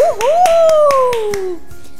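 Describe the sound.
Clapping for a prize winner: a steady series of sharp, evenly spaced claps from only a few hands, under a drawn-out cheering voice whose pitch slides downward.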